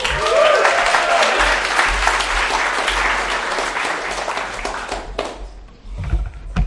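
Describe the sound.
A church audience applauds to welcome a speaker, loud dense clapping that holds for several seconds before thinning out and fading toward the end.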